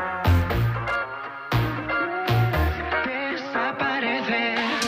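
A new song plays: loud music with punchy low bass hits, strong rhythmic accents and a bright harmonic melody that moves steadily above them.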